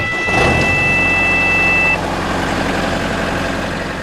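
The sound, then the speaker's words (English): A volunteer fire brigade's pump engine starting during a training exercise at Humpty Doo: a rumbling roar kicks in and runs steadily, with a high steady tone over it for about the first two seconds. “Pump start.”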